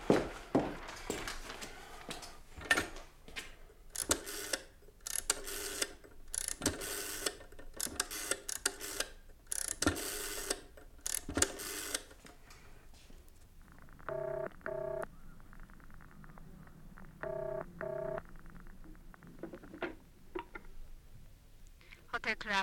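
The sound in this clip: A telephone is dialed with touch-tone beeps in two short groups of rapid tones, after a stretch of clattering handling noise and movement.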